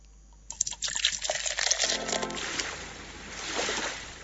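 A bottle is opened and liquid poured: a brief pop, then a steady, splashy gurgle of pouring that runs on and slowly fades, with no talk.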